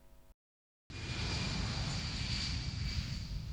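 Airplane flying, from an airline radio advertisement: a steady, loud engine roar starts abruptly after a short silence and holds even until the end.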